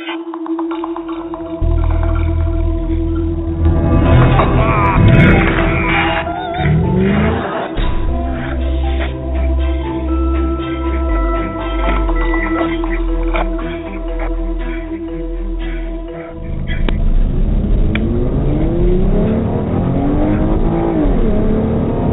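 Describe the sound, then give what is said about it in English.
A Ford Mustang engine revs loudly in repeated surges, its roar sweeping up and down in pitch. After a brief dip, the engine climbs again toward the end. “because I saw you driving that Mustang, and I must say, oh, lady, yeah. You did a great, great job. Let's hear some of that.”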